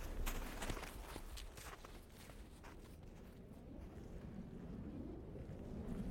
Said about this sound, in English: Shall we walk up the trail a bit